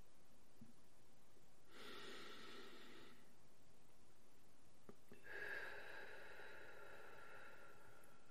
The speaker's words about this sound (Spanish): inhalando por la nariz y exhalando por la boca. Hagámoslo juntos ahora.